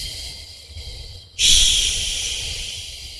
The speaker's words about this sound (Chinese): 再进行缓慢的呼气，呼的时候越慢越好，长呼